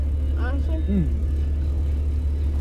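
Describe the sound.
A car being driven gives a steady, low engine and road rumble throughout, with a voice speaking briefly over it.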